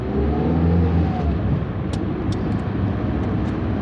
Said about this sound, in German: Mit einem Greenliner, wie die grünen Bundeswehrfahrzeuge heißen, und dem Mietwagen der Pastorin fährt eine Handvoll Soldaten gut 4 Stunden durchs Land in den Nordwesten Litauens zum Kryžiukalnas